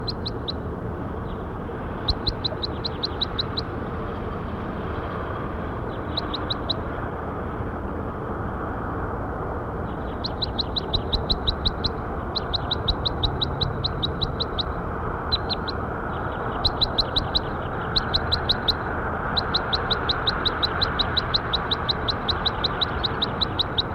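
Bird calls: many short, high chirps in quick bursts, repeating on and off over a steady background of low noise.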